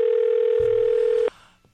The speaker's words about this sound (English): So I'm going to try to get him on the phone. Okay, let's see if he's home.